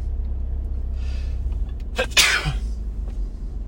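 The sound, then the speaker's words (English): A single sharp sneeze bursts out over a low, steady background hum. “What other podcast has live sneezes?”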